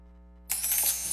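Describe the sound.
Coins drop in a sudden bright metallic cascade partway through, then keep clinking and shimmering to the end. A steady low tone plays before the cascade and continues faintly beneath it.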